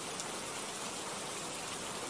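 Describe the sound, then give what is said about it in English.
Steady rain pours down on someone sitting on an outdoor swing, a soft, even hiss of drops that holds at the same faint level throughout, with no voices. “I am sitting on a swing with the rain just pouring all over me”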